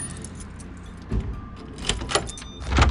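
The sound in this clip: A car being locked: keys jangle softly, then a few sharp clicks and thuds ring out, with the loudest knock coming at the end.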